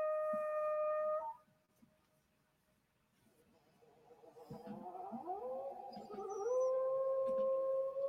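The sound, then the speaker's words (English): Deinonychus dinosaur calls from a video game: a sustained, harmonic howl-like cry, then a quiet gap, then growing growly chatter that leads into another long, loud tonal cry. “I do love their Deinonychus. Very vocal.”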